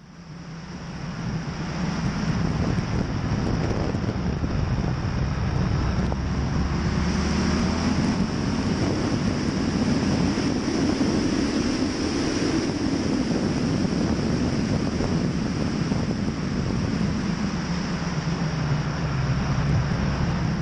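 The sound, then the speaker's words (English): A road motorcycle working through twisty bends on the Oxley Highway, recorded from a camera mounted on the bike: steady, loud wind roar over a droning engine whose pitch swells and eases with the curves. “I've got a video that will show you me on a road bike, taken from the bike on a GoPro on the famous Oxley Highway, working through some twisties for a moment.”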